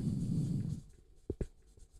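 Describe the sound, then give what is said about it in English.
Writing a word on a board gives faint scratchy strokes after a low rumble, ending in a couple of sharper, louder scrapes. “So first of all, I would like to write a word. I write it here. It says empathy.”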